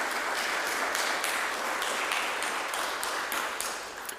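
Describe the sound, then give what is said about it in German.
Applause in a church after a euphonium and organ performance: a steady, dense patter of many clapping hands that holds an even level and tapers slightly at the end. “Danke vielmals, vielleicht an dieser Stelle mal einen Applaus.”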